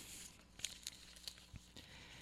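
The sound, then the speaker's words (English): Paper slips rustle and crinkle as they are mixed by hand for a prize drawing, a faint, steady shuffle with a few crisp crackles standing out. “Let's mix everybody up real good here. Playing for a Subway gift card today.”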